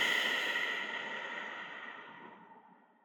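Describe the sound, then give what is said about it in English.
A long, soft exhale through the nose during a guided breathing exercise: one steady breath that starts faint and slowly fades away over about three seconds. “And exhaling through your nose. Inhale through the mouth. Nasal exhale.”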